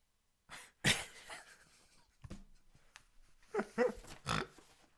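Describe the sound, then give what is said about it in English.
A person snorts in several rough, nasal bursts, some sharp and loud, others softer, with faint breathy noises in the gaps and no talk. “Did you just snort?”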